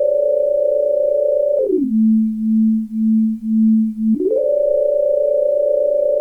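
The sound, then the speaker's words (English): A synthesizer holds a steady buzzy electronic tone, then glides smoothly down to a lower pitch that pulses gently in loudness, and finally slides back up to the original higher tone. No voices. “we're obviously making weird synth noises today, because today is synth day”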